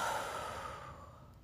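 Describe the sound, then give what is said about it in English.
A deep breath exhaled during a guided relaxation exercise makes a soft, breathy rush that slowly fades over about a second and a half. “Take a big deep breath in through your nose and out through your mouth.”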